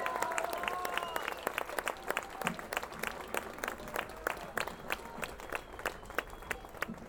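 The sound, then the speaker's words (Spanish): Applause for a drummer introduced at a live concert, many sharp, crisp claps falling into a quick, fairly regular rhythm throughout, with a few voices audible early on. “Un aplauso para el Seba”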